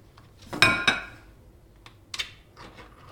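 A metal tin of herring is opened by its pull ring, giving a few sharp metallic clicks and snaps: two close together early, then a couple more scattered ones, with no talk.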